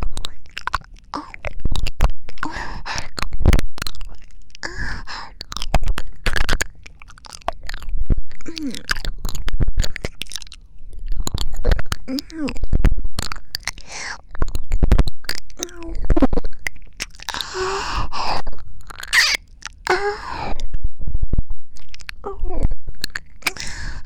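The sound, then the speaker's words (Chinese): Licking sounds in an ASMR roleplay: dense, continuous wet mouth noises, smacks and slurps, loud and close, with no talking over them. “先帮你舔一舔。”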